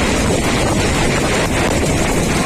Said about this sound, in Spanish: Reventones como el que estaban escuchando en la zona de Espinardo en Murcia